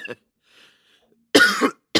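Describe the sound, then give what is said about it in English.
Coughing from a person who has choked on their own inhaled saliva: one harsh, rasping cough bursts out mid-clip, with brief clipped fragments at the start and end and near-silence between. “I hate it when I choke on my own saliva.”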